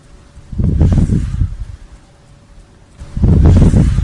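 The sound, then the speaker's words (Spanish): Gusty, rushing wind noise in a psychophony recording swells in two loud surges separated by a quieter lull. “Un susurro. Se escucha detrás de ese sonido del viento, se escucha ese vida.”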